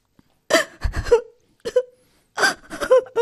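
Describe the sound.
A young woman weeping with her face resting on her knees on the floor, broken sobs and whimpers coming in several short bursts with catches of breath and brief silent pauses between them.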